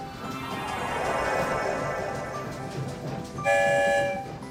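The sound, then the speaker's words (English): A train rolls along with a steady, dense rumble, then a loud, sustained whistle sounds near the end before fading back into the rolling noise. “That's the sound of two whistles. We're headed for the Rainbow Tunnel that will take us far, far away.”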